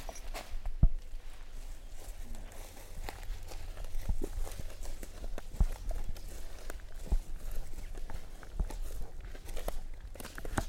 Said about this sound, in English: We've probably walked a few hundred meters, I'd say.